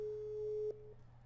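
A telephone tone while placing a call: a single steady, mid-pitched beep held for most of a second, then cut off, over a constant low hum.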